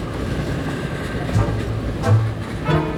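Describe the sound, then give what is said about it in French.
An arriving tram gives a steady low rumble with a faint droning hum, fairly loud and even, with slight surges as it rolls in. “Enfin, voici notre tram.”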